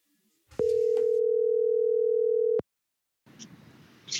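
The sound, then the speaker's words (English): Telephone dial tone on an outgoing call: one steady, single-pitched tone holds for about two seconds, then cuts off abruptly and is followed by faint line noise. “We're going to dial Adam up. He just sent me a text. He's ready to receive our call.”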